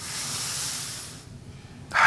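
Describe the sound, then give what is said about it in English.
An audience takes a deep breath in together, a broad, airy hiss of many inhalations lasting just over a second before it drops to near quiet. “So we would tell everybody not to move and to take a deep what? Deep breath. Right now, everybody, take a deep breath.”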